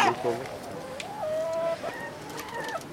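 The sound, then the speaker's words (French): A rooster crows faintly on a snowy winter farm, in two drawn-out, tonal calls that bend up and then fall away. A brief voice is heard at the start. “Le coq qui veut pas mourir.”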